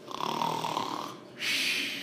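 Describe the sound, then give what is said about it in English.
A voice imitates an elderly man's loud snoring during a church homily: a long, rattling, rasping inhale, a brief pause, then a breathy, hissing exhale. “I can't do it as loud as Grandpa was doing it. So there he was. He was just snoring in the homily.”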